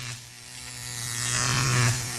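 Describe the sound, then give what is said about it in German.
An electric razor buzzes with a steady motor hum and a bright, raspy edge. The buzz swells louder toward the end of the short stretch. “Was ist das? Ein Rasierer.”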